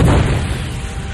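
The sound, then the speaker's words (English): A concussion missile explodes after a burst of plasma intercepts it near a ship. The sound is a loud, deep, rumbling boom that starts hard and fades gradually over about a second, with no voices. “A concussion missile hurtled toward the ship. Ganner sent a burst of plasma out to intercept it. And Jaina jinked sharply to avoid the resulting explosion.”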